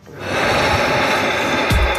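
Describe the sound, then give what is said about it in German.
A long, forceful breath drawn in through the nose during a stress-relieving breathing exercise, a loud, steady rushing hiss that lasts about two seconds. “Durch die Nase rein und dann machst du noch Reste. Noch ein bisschen mehr rauf und dann raus. Also du schnaufst durch die Nase rein.”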